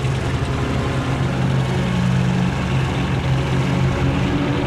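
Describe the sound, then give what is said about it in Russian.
Tank's heavy engine runs as a low, steady rumbling drone with a strong deep hum, even and unbroken throughout. “Танк заводит мотор и идет за броневиком.”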